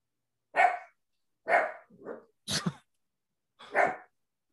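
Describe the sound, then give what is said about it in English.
A dog barks five times in sharp, separate bursts, the third one shorter and softer, with short silences between them. “guys, that's my dog.”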